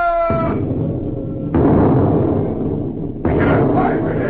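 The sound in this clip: A ship's cannons fire a broadside: three heavy booming blasts, each breaking out suddenly and trailing into a long rough rumble, with short gaps between them.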